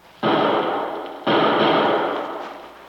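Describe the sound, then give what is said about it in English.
Two loud gunshots fired from a lower window during an armed standoff, about a second apart. Each is a sharp, heavy blast followed by a long, slowly fading rumble. “Shots came from that lower window. Yeah, and he hasn't located us. He was firing wildly.”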